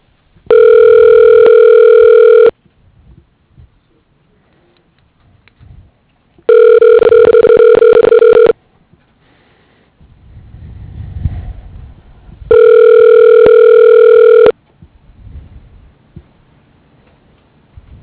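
A telephone ringback tone plays while a call is transferred to voicemail: three long, steady, evenly spaced tones, with faint rustling and low rumble in the quiet gaps between them.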